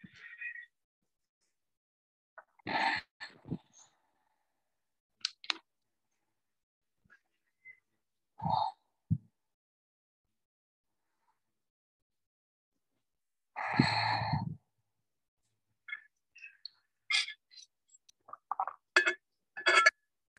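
Slow, deep breaths during a yoga class, taken while holding a home base pose: a few soft, sigh-like exhales spaced far apart, quiet and breathy, with near silence between them.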